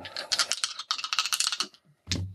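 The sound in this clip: Large dice roll on a table with a rapid run of many clattering, rattling knocks. After a brief pause comes a single heavier thud as they come to rest.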